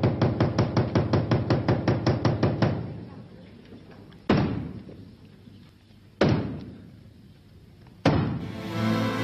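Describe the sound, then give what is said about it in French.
Theatre's traditional knocks before the curtain rises: a rapid run of many sharp taps, then three loud, heavy blows spaced evenly with pauses between them. “Il me semble qu'il est grand temps de frapper les trois coups.”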